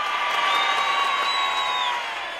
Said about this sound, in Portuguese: Uma multidão de aplausos pra ela!